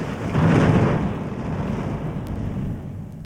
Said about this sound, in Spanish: Un trueno sonoro anunció el comienzo de la función y una batuta de rayos se encargó de la obertura. La lluvia se dejó caer sobre techos y cementeras.